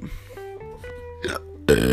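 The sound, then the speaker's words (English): A loud, throaty hiccup bursts out near the end, preceded by softer voiced throat sounds from someone with bad hiccups. “I have the hiccups really bad now.”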